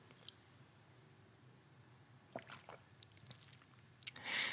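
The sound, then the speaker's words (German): Tea being sipped from a cup: faint wet slurps and small mouth clicks come in a few quick bursts, followed by a slightly louder sip at the end, all very quiet. “Also ich trinke jetzt einen Schluck Tee und du bist ganz gespannt.”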